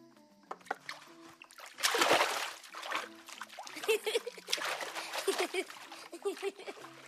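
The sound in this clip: Water poured and splashing as a mother washes her child, with a loud gushing burst near the start, then softer trickles and splashes while voices talk over it.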